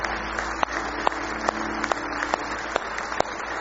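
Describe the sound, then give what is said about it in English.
A church audience clapping hands in steady rhythmic unison, regular sharp claps over a broad, noisy wash of crowd sound, with no clear talk. “Oh, give him a hand clap of praise.”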